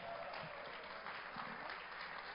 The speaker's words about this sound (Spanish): Si están agradecidos, ¿qué tal un aplauso a nuestro buen Dios?